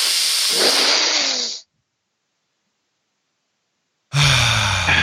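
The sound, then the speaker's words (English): Deep, forceful inhale through the nose and mouth, a loud breathy rush lasting over a second, then silence before another loud rush of breath. “And then this one, breathe in as hard as you can.”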